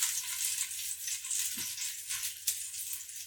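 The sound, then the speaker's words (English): Scallions sautéing in a pan give a steady, bright sizzling hiss that runs throughout, with a couple of brief soft bumps that may be stirring. “I'm still sautéing these scallions. They're not golden brown yet.”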